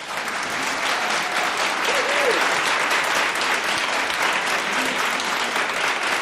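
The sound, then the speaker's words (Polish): Applause from a live studio audience: dense, steady clapping that holds at an even loudness from start to finish. “te brawa nie są wypuszczane z tak zwanej puszki.”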